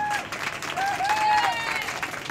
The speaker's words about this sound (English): Let's have a round of applause for our experts.